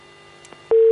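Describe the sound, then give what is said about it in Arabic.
A telephone busy tone as a phone-in call is cut off, a loud steady mid-pitched tone cutting in abruptly after a faint click and a few soft line noises. “طيب اتصال قطع، يا ريت اختنا تحاول اتصال بنا مره اخرى”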